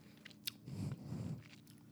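Chewing on a coconut blueberry muffin, faint and soft, with irregular moist crunching and a small bite click near the start.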